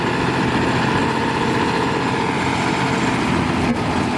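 Idling engine of a hydraulically driven machine, a loud, continuous low rumble that holds steady throughout without speech.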